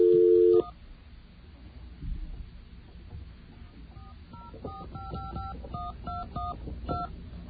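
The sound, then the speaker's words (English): Touch-tone dialing as an AT&T directory assistance service places a call automatically: a short steady tone at the start, then a quick run of many crisp dual-tone beeps over faint line hiss. “AT&T directory link service can dial your call automatically. I'll hit one now.”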